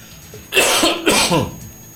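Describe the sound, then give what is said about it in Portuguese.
Two loud, harsh coughs from an irritated, itchy throat, close together and rising sharply out of a low background hiss, with no talking over them. “Incomodando minha garganta, sorte que o Manuel me socorreu com água. Mas quando eu falo, começa a coçar e a irritar.”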